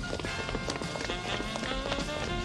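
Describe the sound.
Hurried footsteps of people running on foot, a quick, dense patter of steps lasting a couple of seconds.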